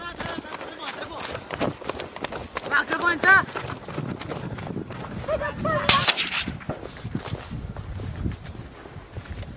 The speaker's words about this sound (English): Why are you shooting? Look at how brave she is. Well, soldiers, we have no weapons. Please do not shoot. They shot,